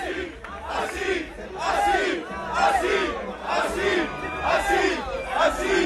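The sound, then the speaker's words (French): Audience clamor and shouting from a crowd at a live event, loud and sustained, swelling and falling in repeated waves throughout. “On va tenir compte des clameurs du public, je pense.”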